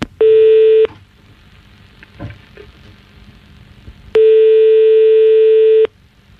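A telephone ringback tone plays while a call waits to be answered: two steady, mid-pitched beeps separated by a quiet gap. The first beep is short and the second lasts almost two seconds.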